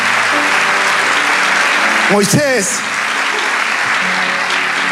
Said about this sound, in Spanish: Dale ese aplauso.